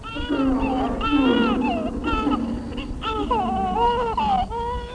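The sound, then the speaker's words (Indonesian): A tiny baby cries from thirst and cold, with continuous wavering wails that rise and fall in pitch, broken into several drawn-out sobbing phrases at a moderate, steady loudness. “mendekati bayi mungil yang sedang menangis kehausan dan kedinginan”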